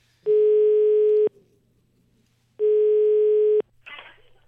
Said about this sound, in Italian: Vogliamo provare a fare una telefonatina a Platì?